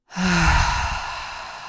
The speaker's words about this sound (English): Take a nice, big, slow, deep breath in with me through your nose. And a big exhale out of your mouth.